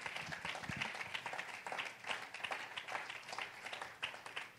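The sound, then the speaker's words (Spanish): Church audience applauding: dense, steady clapping from many hands that holds at an even level throughout, with no clear pause or break. “Un aplauso al Señor.”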